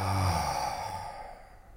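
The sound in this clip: A deep breath slowly exhaled during a guided relaxation breathing exercise. It is a single soft, breathy rush that starts fullest and fades gradually, with no talking over it.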